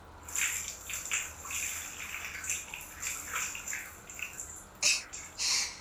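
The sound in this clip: Water splashes and trickles during a bath as someone's back is washed and rinsed. Soft, repeated pours are followed by a couple of brighter splashes near the end, all fairly quiet.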